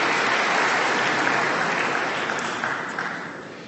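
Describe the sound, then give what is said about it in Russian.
Applause for athletes, including synchronized divers, at an official ceremony: a dense, even wash of clapping that gradually fades over nearly four seconds. “Попрошу наших спортсменов подняться. Аплодисменты.”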